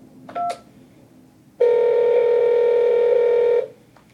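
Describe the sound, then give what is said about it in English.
Telephone touch-tone sounds while calling a golf club's phone menu: a short keypad beep, then a single long, steady electronic tone lasting about two seconds before cutting off. “Please dial 1 for real estate, dial 2 for the pro shop, and dial 3 for the restaurant.”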